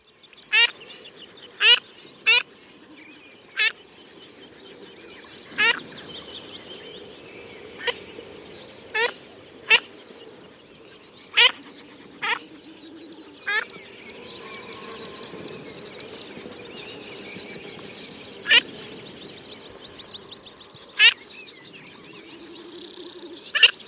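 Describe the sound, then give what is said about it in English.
Bank swallows call in many short, harsh chirps that come at irregular intervals over a faint background murmur, each call brief and sharp. “Bank swallow.”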